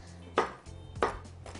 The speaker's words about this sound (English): Okay, so let me grab a knife here. You need about a half a cup of chopped almonds.